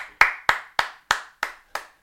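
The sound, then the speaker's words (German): Sharp handclaps from the audience at a live talk in front of an audience: seven crisp claps, evenly spaced and steady in rhythm, each clear and separate with silence between. “Applaus, komm.”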